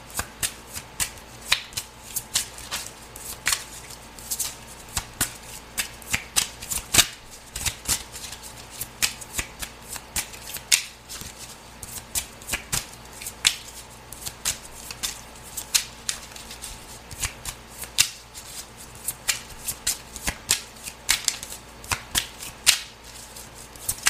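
Playing cards are shuffled again and again for the card game Timelines of Scorpio, giving many crisp riffles and sharp flicks over a soft steady background, with no voices.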